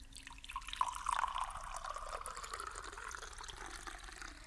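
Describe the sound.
Water pours into a bowl with a faint, steady trickle and splash that runs throughout.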